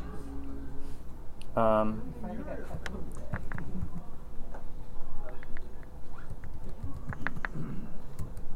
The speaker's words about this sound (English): Oh, wow. I can't believe I typed that.